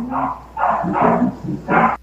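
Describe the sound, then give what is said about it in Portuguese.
Dogs bark in quick succession, several short, loud, throaty barks in an uneven rhythm lasting about two seconds, with no voices. “Até os cachorros estão pentecostais hoje aí.”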